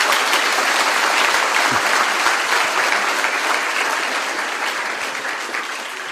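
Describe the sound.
Audience applause at a speaking event: a thick, continuous wash of clapping that stays loud throughout and tapers slightly toward the end.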